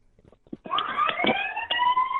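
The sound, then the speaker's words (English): A siren wails in over a caller's phone line, its tone rising at the onset and then holding a loud, steady whine after a few faint, brief sounds. “Did you time that siren there”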